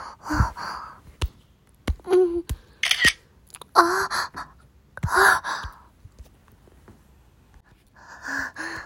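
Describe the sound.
Camera shutter clicks while a photo is taken: a few sharp, dry clicks scattered among breathy gasps and sighs, with no clear speech.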